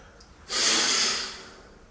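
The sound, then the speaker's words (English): Forceful exhale through the nostrils after a nasal rinse in a shower: a single sharp, hissing nasal blast of about a second that swells quickly and then fades away. “And then it's important to kind of do a big exhale out to try and dry up the nostrils afterwards as well. So I'll do another little bit on this and then I'll switch nostril.”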